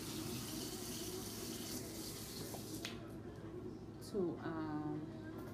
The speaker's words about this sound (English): to wash this hair. Well, wash it again because I already washed it, but I wanted it freshly washed.